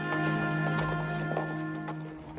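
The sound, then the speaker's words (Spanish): Horse hooves clop at a slow, steady walking beat as a rider rides away on horseback, with soft regular strikes under sustained tonal music. “Vin se marcha en su caballo y Chris camina con sus alforjas en la mano.”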